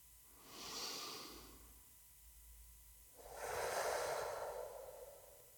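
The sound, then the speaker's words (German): Slow, deliberate breathing in and out during a relaxation exercise: a soft, airy inhalation followed after a pause by a longer, fuller exhalation. The breaths are gentle and unaccompanied, with no talking. “Und atme bewusst ein und aus.”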